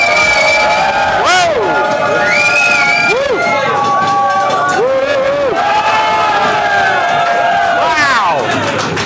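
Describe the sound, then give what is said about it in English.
Loud cheering from a live audience in Montreal at a developer conference, with continuous crowd roar, rising shouts and whistles, and clapping that stays at full volume throughout. “Hey Montreal, welcome to .NET Rocks!”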